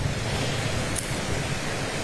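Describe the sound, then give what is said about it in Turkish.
Strong wind on the seashore at Çengelköy in Istanbul, a loud, unbroken roaring rush of noise that stays steady from start to finish with no pauses. “Şu anda Çengelköy bandındayız ve rüzgarın bir yandan da başladığını sizlere söylemek istiyorum.”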